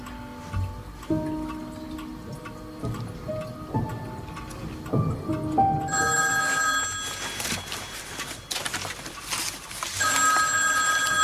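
A telephone ringing in a couple of loud, bright, shrill bursts in the second half, preceded and accompanied by steady ticking, with no talk.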